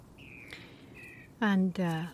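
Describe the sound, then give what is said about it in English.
Bird chirps outdoors: two thin, faint whistled notes, followed by a louder human voice. “I don't know what the birds are talking. Are they saying something?”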